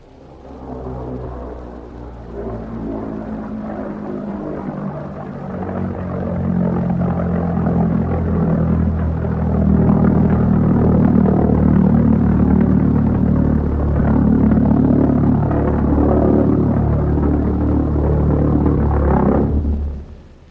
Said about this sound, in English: Here's the sound of one of them. You'll hear the drone, the awful silence, and then the explosion.